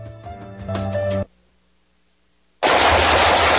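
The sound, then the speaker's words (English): Rapid automatic gunfire from a shooting session erupts as a loud, dense, unbroken burst, following a short tonal passage and a moment of near silence. “Nice shooting.”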